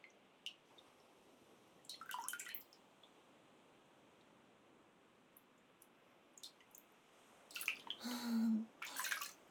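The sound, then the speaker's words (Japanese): Hot water is scooped and poured over hands as they are washed, giving soft splashes and trickles in a few short bursts separated by near silence. The last bursts are fuller and louder. “お湯を汲んで手を温めながら洗います。”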